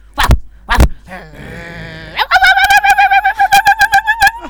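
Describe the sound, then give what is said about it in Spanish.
A cockatoo calls, starting with a couple of loud, harsh squawks and wavering notes, then breaking into a rapid run of many repeated, clear, tonal calls. “Y ahí tenés a la cacatúa.”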